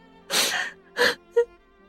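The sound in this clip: A woman cries uncontrollably over losing her child, letting out three short, breathy sobbing gasps, the last one brief and choked.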